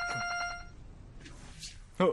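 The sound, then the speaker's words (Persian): A mobile phone rings in a quick series of bright, repeated electronic pulses that stop after about half a second. A short stretch of quiet follows, then a voice briefly speaks at the end. “گوشی منه. نمیتونم تکون بخورم. مراقب باشی. میشه لطفا جواب بدی؟”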